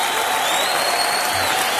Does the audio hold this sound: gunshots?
no